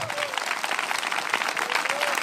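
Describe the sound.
A church audience applauds with steady, dense clapping that runs throughout, with a few voices mixed in.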